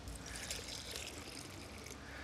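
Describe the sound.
Water poured into a container set into the ground as a small emergency water reservoir: a faint, steady, unbroken trickle and splash with no talking.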